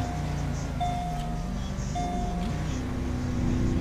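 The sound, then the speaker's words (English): A police car's engine drives steadily in a video game, running with its lights off at around 60. The low, fairly constant motor hum shifts gently in pitch, with no talk over it. “We'll just keep our lights off because it might be bugged. We'll just drive 60 down there.”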